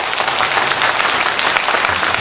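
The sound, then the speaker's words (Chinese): Warm audience applause at a church gathering welcoming a pastor, dense, even clapping that stays loud and steady from start to finish with no voices over it. “所以借用你们热烈的掌声欢迎张汉林牧师。”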